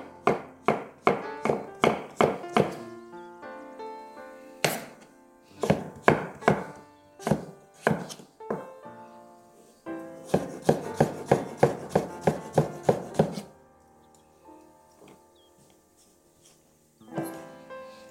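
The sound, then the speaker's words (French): A knife dices squash into tiny cubes on a cutting board, with quick rhythmic chops in several bursts separated by short pauses, crisp and fairly faint. “je vais vraiment tailler des tout petits cubes.”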